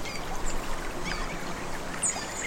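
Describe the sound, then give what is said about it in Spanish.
River water flowing in a forest, a steady, continuous rush and babble with no pauses, heard alone without voices. “Escuchas el río cómo corre, el agua cómo fluye”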